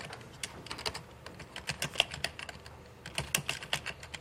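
Rapid, irregular clatter of keys on a computer keyboard as someone types code, a steady stream of many crisp keystrokes with occasional louder taps and no voices.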